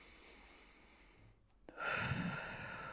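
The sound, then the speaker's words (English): A deep cleansing breath: a quiet, soft rush of air that starts after a brief hush and continues steadily to the end. “I took a cleansing breath there”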